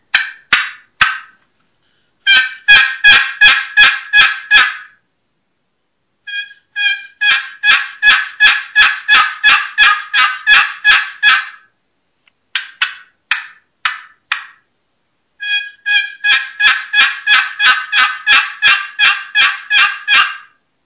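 A Primos box cutter turkey box call, played by hand, gives rhythmic, raspy hen yelps. They come in four runs of many evenly spaced notes, separated by short pauses.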